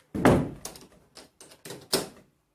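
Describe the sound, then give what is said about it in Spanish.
Classroom doors swing shut as a teacher closes them: a few hollow thuds and knocks spread over two seconds, with the first and last impacts the heaviest. “La maestra cierra las puertas, dejando encerrados a Rosita, Ángel y María en el salón.”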